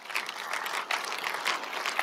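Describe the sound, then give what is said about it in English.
Sparse, polite golf clap from a church audience: a quiet, thin patter of scattered hand claps with no voices, soft and uneven throughout. “And I knew I was only gonna get a golf clap because many of you think that's the pastor's job to preach against.”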